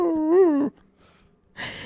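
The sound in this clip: A person's voice imitates a wolf dog whining: one wavering, high, nasal whine lasting under a second, followed by a short near-silent pause.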